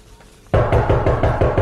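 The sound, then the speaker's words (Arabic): Loud, rapid knocking on a door begins abruptly and keeps going as a fast, steady run of heavy thuds. “شو ما عم تسمعوا؟ وصل الساعة واقف عم دق على الباب.”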